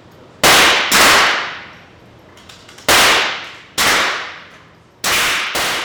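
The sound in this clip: Gunshots on a gun club shooting range fire as six sharp, loud reports at irregular intervals. Each crack decays quickly, and no one talks.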